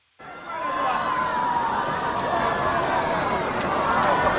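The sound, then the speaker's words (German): Robot runners at a robot marathon in Beijing, met by a cheering crowd: a loud, steady wash of cheering and babble that starts abruptly and holds to the end. “Läufer Nummer 1 pest allen davon. Er wird bejubelt auch von seinesgleichen beim Show-off-Roboter-Marathon in Peking.”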